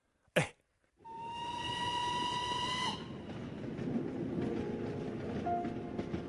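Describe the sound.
A train bound for Yan'an sounds its steam whistle, a bright, sustained tone of about two seconds over a broad rumbling roar that continues after the whistle stops. A brief sharp burst comes before the whistle.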